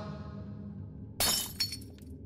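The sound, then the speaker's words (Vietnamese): A mirror is smashed and shatters on the floor in a sharp, loud burst of breaking glass. A second, smaller crash of falling shards follows, over a low, faint hum. “Tấm gương rơi xuống đất vỡ tan tành,”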